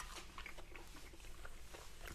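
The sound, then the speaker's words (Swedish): Someone eats oven-baked goose with jelly, making faint, quick, repeated soft bites and wet chewing sounds in a steady rhythm throughout. “Ja, nu kommer gåsen här. Ta hela. Nu ska jag se så jag inte spiller på datorn här.”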